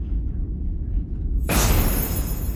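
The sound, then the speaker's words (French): An enemy ship opening fire in an audio drama: a low, steady rumble gives way midway to a sudden loud, broad roaring blast that sustains to the end. “ils viennent de faire feu.”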